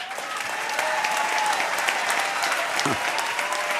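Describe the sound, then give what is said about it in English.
Steady audience applause, with many hands clapping at once in a dense, continuous roar that holds level for the whole clip. “I'm trying to get your hands together, get a bit more of a clap going.”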